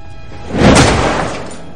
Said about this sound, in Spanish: Jennifer toma la ropa extrañada y la taquilla se cierra de golpe.